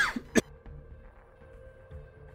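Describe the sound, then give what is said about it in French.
A short cough: one sharp burst early on, followed by near-quiet background. “Pardon, je toussais.”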